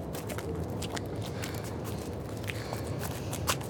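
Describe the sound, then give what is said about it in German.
Footsteps of people walking around a building, with many soft, steady steps that stay faint and even against a constant background rustle. “Kommt, wir gehen noch mal weiter, um das Gebäude herum.”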